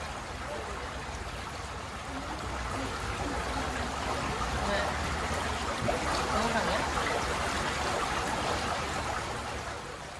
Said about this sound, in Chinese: 怎么没有听到西瓜的声音呢？太远了，这个水声太大了，水声太大了。